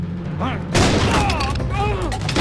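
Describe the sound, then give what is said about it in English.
Gunfire exchanged as people flee out of a house: a sudden loud burst of shots and booms, mixed with shouting voices, that stays dense and loud to the end. “Sam trades shots with Naples' accomplice as he, Karen and Tammy flee out of the house.”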